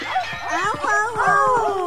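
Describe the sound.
A small dog yipping and whimpering in a narrated story about a troublesome dog, giving quick, high, wavering cries that rise and fall in pitch, packed closely together over about two seconds.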